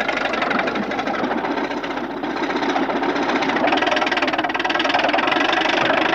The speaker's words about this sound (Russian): Трактор крутится по кругу на одном месте.